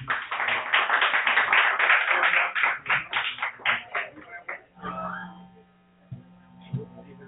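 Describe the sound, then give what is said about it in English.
Audience applause for an opening act, a singer and poet, at a live show: a dense run of hand claps for about four seconds that thins out, then a voice speaking. “So please, ladies and gentlemen, if you can, put your hands together for our opening act”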